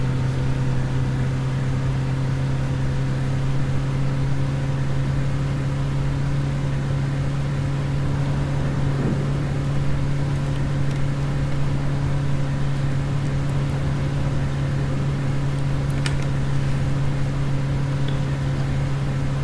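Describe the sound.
A car drives on while the driver can barely see the road, with a constant low engine drone and a steady humming tone that stays unchanged for the whole stretch.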